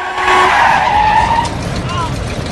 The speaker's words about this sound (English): A 4x4 swerves to avoid him.